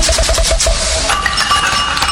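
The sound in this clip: Clink of a large beer bottle used as a sound effect: loud glassy knocks and a few bright ringing clinks in quick succession, with no voices.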